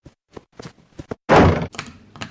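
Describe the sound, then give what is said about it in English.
A door is shut and locked: several small clicks and taps, then one heavy wooden thunk, followed by a few fainter metallic clicks. “She's locked us in.”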